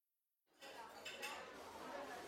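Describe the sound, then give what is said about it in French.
Cutlery and dishes clink on a tray in a school canteen: quiet, scattered light clinks and clatter over soft background chatter. “Tiens, un plateau. Ah, j'oublie les couverts. Alors, une fourchette, un couteau, une cuillère et un verre.”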